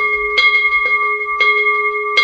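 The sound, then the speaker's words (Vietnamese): A Buddhist temple bell is struck to open a ceremony, ringing four times in just over two seconds. Each strike is bright, and a steady, sustained hum of clear tones carries on between the blows. “Bắt đầu vào khóa lễ thì chúng ta cũng thức chuông, hay còn gọi là rắc chuông hai lần như thế này, và bắt đầu chúng ta thỉnh hồi chuông.”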